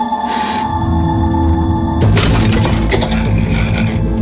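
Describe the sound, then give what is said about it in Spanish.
A laptop is smashed against the floor during a violent outburst in a thriller film: one sudden loud crash about halfway through, followed by a clatter of debris over a sustained tonal backdrop. “Golpea la cámara con rabia dejando sin conexión a Nicolás y Sara. Agarra el portátil y lo estampa contra el suelo en un arrebato violento.”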